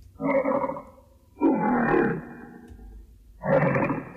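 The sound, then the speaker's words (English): Three rough, throaty bursts of a lion roar, from the original version of an early film-logo roar. The bursts are loud, separated by short pauses, and sound grunting and mid-pitched. “Now here's the roar as we know it. And here is the original roar.”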